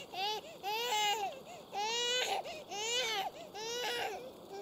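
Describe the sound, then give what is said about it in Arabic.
A baby boy cries in a series of rhythmic wailing bursts, each rising and falling in pitch with brief pauses for breath, loud and insistent throughout. “الله ما بال هذا الصبي لا يكف عن البكاء”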